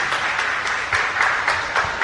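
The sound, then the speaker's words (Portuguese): An audience claps after the gospel reading at a church Mass. The applause is steady and rhythmic, with the clapping falling together in regular beats at an even, moderate loudness and no talk. “Salve de palmas para a palavra de Deus.”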